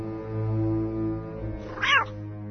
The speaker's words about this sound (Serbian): Mačke tako dobro znaju da se ušuškaju, da po ceo dan i ne rade ništa drugo. Naročito ova mačka.